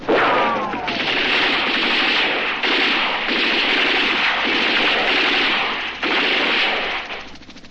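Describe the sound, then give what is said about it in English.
Machine gun and automatic rifle fire from infantry bunkers spraying the trees during combat. The dense, continuous crackling roar barely lets up and stays loud throughout, with a low rumble underneath. “I see the infantry bunkers below, machine gun and automatic rifle flashes. They're spraying the trees, trying to keep the snipers off of us.”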